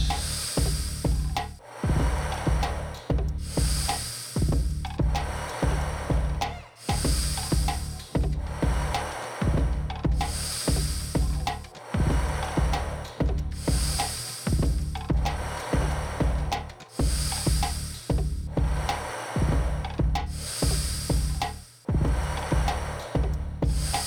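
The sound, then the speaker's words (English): Deep breaths drawn in and pushed back out during an intense breathwork round of 40 breaths, each inhale and exhale loud and airy, repeating in many steady, evenly spaced cycles with no talking. “With 40 breaths. Deep breath in and back out.”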